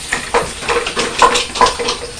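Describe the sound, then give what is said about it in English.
Wooden fork and spoon whisking pretend eggs in a jug give off a rapid run of light scraping, clattering strokes in an uneven rhythm, fairly loud and with no voices. “you put the eggs into the jug and you're whisking them with a wooden fork and a wooden spoon.”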